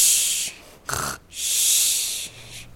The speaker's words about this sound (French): pendant que ses frères ronflaient en faire trembler la cabane